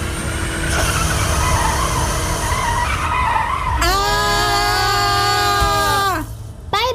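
Race cars skid through a curve, with loud engine roar and screeching tires. Midway a long, high, harmonic tire squeal starts, holds steady and cuts off near the end.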